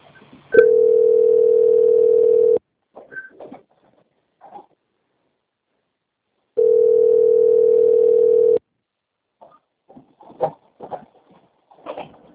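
A telephone line plays its tone while a call is being transferred: two long, steady mid-pitched tones of about two seconds each, separated by a pause of around four seconds. Faint scattered clicks and rustles fill the gaps and follow the second tone.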